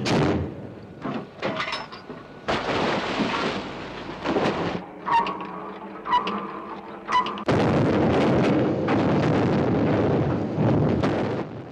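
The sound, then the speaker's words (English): An explosion blasts the sea upward at a ship's stern, throwing up a wall of spray: a long, deep rumbling roar with rushing, surging water noise that swells again toward the end. “At the stern of the ship, the sea blasts upwards, forming a wall of spray.”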